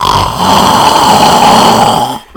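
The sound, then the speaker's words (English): A voice imitates an exaggerated, over-the-top snore: one long, loud, rasping breath lasting about two seconds, then cutting off abruptly. “like the most over-the-top snoring noise I've heard.”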